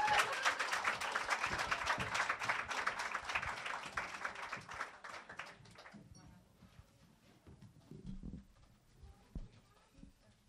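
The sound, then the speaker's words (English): Audience applause at a presentation event: loud, dense clapping for about five seconds that tapers off, followed by quieter scattered sounds and faint voices. “Let's have a round of applause for Katik Digital and for Maya from Sabanat.”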